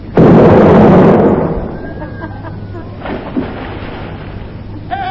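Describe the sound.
A torpedo is fired toward a jetty with a sudden loud explosive burst that lasts about a second, then fades into a lower, rumbling tail with a couple of small knocks.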